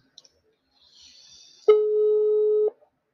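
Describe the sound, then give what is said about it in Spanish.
A telephone line gives a single steady mid-pitched tone lasting about a second as a call is cut and redialed, preceded by a couple of faint clicks and a brief soft hiss, and ending with a small click. “Voy a cortar la llamada. Voy a volver a realizarla.”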